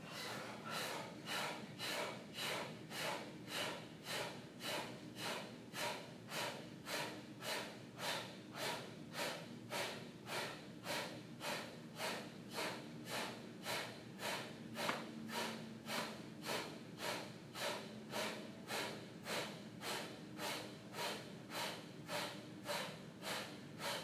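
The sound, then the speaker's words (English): Rapid, forceful breath-of-fire exhalations from a yoga class's kapalabhati practice: many short, sharp nasal puffs in an even, quick rhythm, about two per second, sustained throughout at a quiet level with no talking. “Kapalabhati, breath of fire. Let all the air out.”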